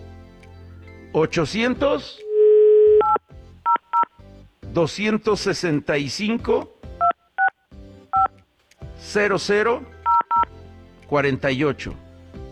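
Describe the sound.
A telephone number is dialed on a keypad, with a steady tone followed by several short, paired DTMF beeps scattered between bursts of a man's talking.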